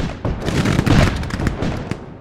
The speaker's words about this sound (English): The Confederates launch a dawn attack on Union lines and are soon pinned down under heavy Union fire.